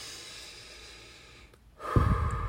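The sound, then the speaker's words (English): A deep breath taken during a guided new-year mindset exercise: a short, breathy rush of air that swells up near the end after a stretch of soft, steady hiss. “All right, let's take a deep breath.”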